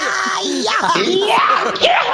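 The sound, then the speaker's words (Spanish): A voice imitates an elderly woman's exaggerated sneeze as a loud, drawn-out yelling cry with wavering pitch that fills about two seconds. “de la nona sí hay algo que todavía hace porque vive, y es que cuando va a estornudar hace...”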